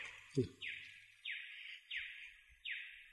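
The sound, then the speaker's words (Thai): A bird repeats four evenly spaced, downward-sliding whistled notes, each faint and fairly high, after a brief low sound at the start. “ฟังเสียงนกร้อง”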